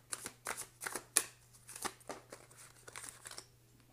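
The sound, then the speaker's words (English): Tarot cards being shuffled, a quiet string of soft papery riffles and flicks with one sharper snap near the middle, over a faint steady hum and without talk. “Okay, never mind. 2 cards fell out.”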